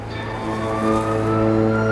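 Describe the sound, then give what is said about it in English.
An ambulance pulls up to a hospital. Its engine gives a steady, continuous hum at even loudness, with no siren clearly evident. “Now an ambulance pulls up to a hospital.”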